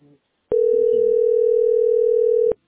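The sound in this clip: A telephone line gives a steady, unchanging dial tone while someone keeps calling. The tone switches on abruptly, holds for about two seconds and cuts off sharply. A brief voice comes just before it, and faint talk runs underneath.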